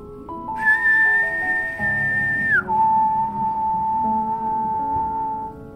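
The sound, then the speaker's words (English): A man imitates a whistle with his own whistling, holding a clear, high, steady tone for about two seconds, then dropping an octave and holding the lower tone for a few seconds more, with a faint hum beneath. “He stopped speaking and mimicked a whistling noise, first holding a high-pitched tone for about 2 seconds, before dropping the pitch an octave and holding for another 2 seconds.”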